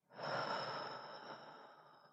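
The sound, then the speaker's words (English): A deep breath is exhaled during a guided relaxation exercise. The single long, soft breath has a steady airy rush that starts abruptly and slowly fades over about two seconds. “I want you to take a nice deep breath in and hold it. And exhale.”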